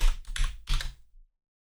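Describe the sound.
Keys clatter as someone types a reply on a computer keyboard, a few quick bursts of keystrokes separated by short pauses, then silence.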